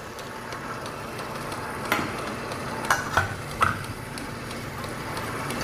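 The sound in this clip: Minced pork, a mix of fatty and lean meat, is stirred until evenly blended, giving a faint, steady squelching rustle punctuated by a few sharper knocks.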